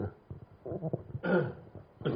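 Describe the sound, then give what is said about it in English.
A person coughs with short, rough, breathy bursts, the strongest near the middle and another at the end, among low murmured vocal sounds. “After that, I think you cough. I cough.”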